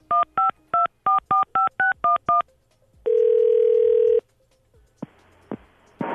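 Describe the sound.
A touch-tone telephone dialing a disconnected number: nine quick, evenly spaced beeps, then a single steady tone held for about a second, followed by a few faint clicks and short bursts of hiss.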